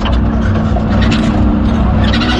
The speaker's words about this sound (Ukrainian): І ось машиною доїжджаємо до певної точки.